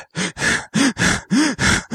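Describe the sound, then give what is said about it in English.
A voice imitates a man's dying last breaths with a rapid, rhythmic run of about seven strained, grunting gasps, each short burst separated by a brief pause, loud and throaty. “he breathes his last breath”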